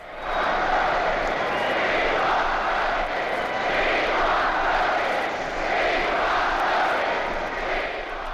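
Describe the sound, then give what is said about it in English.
A crowd roars in a long ovation for Wendell Willkie at the 1940 Republican convention. The cheering is dense and unbroken, swelling and easing a few times in an old, hissy recording. “Roosevelt's opponent, Wendell Willkie, was cheered to victory at the Republican convention by this famous ovation.”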